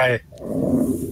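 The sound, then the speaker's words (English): A person growls with their voice during a tabletop role-playing game session, imitating a creature. A short voiced sound is followed by a low, rough, rasping rumble that lasts about a second. “Let out a low little growl at it.”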